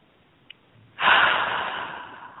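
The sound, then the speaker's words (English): A single deep breath during a relaxation exercise: a faint click, then a sudden loud airy rush of breath that slowly fades out, with no talking. “just take that deep breath and breathe out. And again.”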